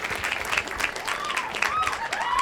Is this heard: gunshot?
no